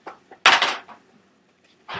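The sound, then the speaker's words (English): A die being fiddled with on a table during a tabletop game gives a few short, hard clattering knocks, the loudest early on, another burst at the very end, with quiet gaps between and no talk. “No, I was just messing with my die.”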